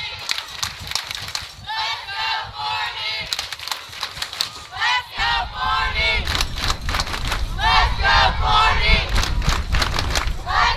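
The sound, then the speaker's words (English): Fans cheer and shout in the stands at a softball game during a tense count. Many overlapping voices form a dense, continuous roar that grows fuller and louder about halfway through. “You can hear the fans behind me. They are behind these Jackrabbits.”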